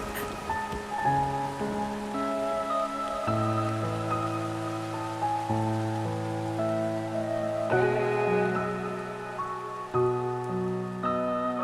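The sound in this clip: Steady rain patter, a continuous soft hiss running beneath sustained melodic music notes throughout, with no voices.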